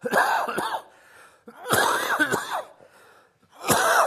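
Harsh, wet coughs from a preacher with a cold during a sermon. There are three separate fits, each made of a couple of rapid hacks, with quiet breathing gaps between them.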